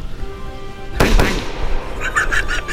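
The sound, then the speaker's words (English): A gunshot from a handgun fired point-blank at a man's face in a narrated film scene: one loud, sharp bang, followed by a few fainter crackling bursts. “The gun explodes. What? Bullets hit the man in the face.”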